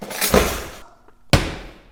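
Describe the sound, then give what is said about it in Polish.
Doors and drawers slamming: two loud crashes, the first a broad rattling bang that decays slowly, the second a sharp, abrupt slam that rings out briefly. “trzaskanie drzwiami, szufladami”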